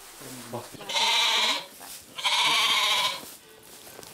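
Billy goat bleating in a stable, with two loud, drawn-out bleats about a second apart. Faint low rustling comes before them, and quiet noise follows.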